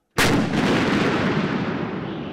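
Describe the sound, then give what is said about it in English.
A single thunderous boom from the Army's largest howitzer firing a 103-pound high-explosive shell, the first of a barrage in artillery training, followed by a long, rumbling decay. “And that is the Army's largest howitzer. The 103-pound high explosive shell is the first in a barrage, hurtling right at those butterflies who happen to live in the impact zone for artillery training.”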